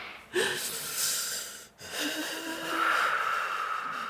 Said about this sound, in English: We're going to take a deep breath together, okay? Okay, let's do it together.